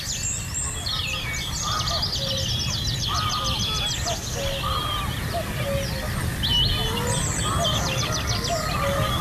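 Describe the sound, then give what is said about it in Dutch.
Wood pigeon cooing in a morning bird chorus in Belgium: short, soft, low coos repeating in phrases, with many high chirps and twitters from other birds. “Houtduif? Houtduif, inderdaad, ja.”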